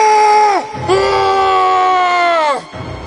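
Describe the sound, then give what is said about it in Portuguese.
Dramatized screaming of violent, dangerous men who were living in a cemetery: two loud, sustained cries, a short one followed by a longer one, each dropping in pitch as it cuts off. “Eles começaram a gritar.”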